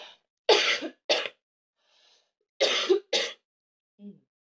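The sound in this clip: A chesty cough comes in two bouts, each of two or three harsh, rough bursts separated by silence. A short, faint throat sound follows at the end.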